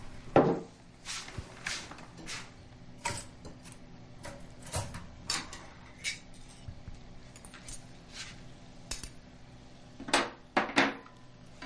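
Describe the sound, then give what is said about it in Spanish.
Light clinks and clatters of cutlery and dishes being set on a table for two at breakfast. Many sharp, brief knocks come at uneven intervals over a faint steady hum, with no voices. “Pone cubiertos para dos.”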